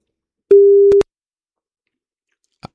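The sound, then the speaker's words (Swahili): A dropped phone call gives a single steady electronic tone lasting about half a second, then silence broken by one brief click. “Simu imekatika.”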